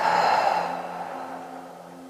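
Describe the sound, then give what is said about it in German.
A slow, deep breath taken with eyes closed as part of a relaxation exercise, heard as a soft, breathy rush that starts fairly loud and fades gradually over about two seconds, with no talk. “Dann schließe deine Augen und atme einmal ganz tief ein und wieder aus.”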